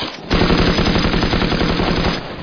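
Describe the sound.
Machine-gun suppressing fire in a firefight: a loud, rapid, unbroken stream of shots that runs almost the whole clip, with no talk over it.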